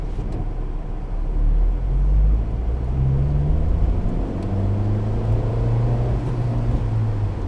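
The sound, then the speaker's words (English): A car engine sits at high idle, a steady low droning hum with a faint overlying whine, fairly loud and continuous throughout with no voices. “There's that idle. High idle.”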